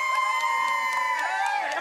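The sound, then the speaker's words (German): A crowd cheers as homecoming Norwegian Olympic athletes arrive at Oslo airport amid a sea of flags, with a sustained roar, high whoops and sliding shouted calls rising above it throughout. “die ersten heimkehrenden Athleten feiern die Norweger am Flughafen in Oslo mit einem Flaggenmeer und Jubelschreien”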